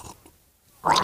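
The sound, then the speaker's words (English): Gargling with soap used by mistake as mouthwash. A mostly quiet stretch breaks into a loud, bubbly, hissing gargle near the end. “let me try some mouthwash”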